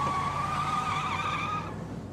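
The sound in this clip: A car pulling away hard with its tyres skidding, a loud sustained squeal lasting about two seconds before it tails off slightly, with no voices.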